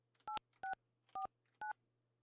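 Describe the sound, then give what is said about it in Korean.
Four short dual-tone keypad beeps as a telephone number is dialed to place a call, evenly spaced and clean over a faint low hum. “이분은 제가 지금 전화 연결을 한번 해보고 싶은데, 궁금합니다. 이분 한번 전화 연결 한번 해볼게요.”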